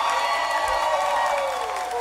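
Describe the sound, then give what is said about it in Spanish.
Crowd applause mixed with some cheering on a party radio show, a continuous and fairly even roar of clapping that eases slightly near the end. “Un aplauso para Free Comer.”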